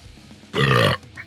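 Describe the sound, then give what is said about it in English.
One loud belch after drinking Coca-Cola: a short, guttural burp of about half a second, alone with no talk. “Sorry, my belching, man. This fucking you and your fucking newfangled Coca-Cola.”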